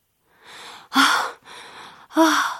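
Gasping for breath as water enters the nose: four ragged breaths in a row, softer airy draws alternating with two louder, strained gasps that carry a voiced edge.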